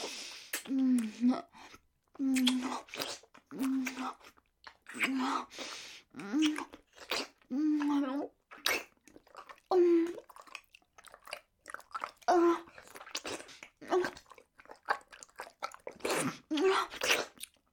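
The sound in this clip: Wet licking and sucking mouth sounds: many moist smacks and slurps in uneven bursts, broken by soft moaning.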